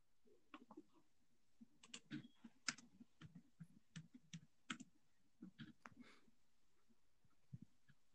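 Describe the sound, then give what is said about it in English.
Typing on a computer keyboard: many irregular, sharp key clicks in uneven bursts, fairly faint over a low background hum. “type in Niagara Falls, Canada.”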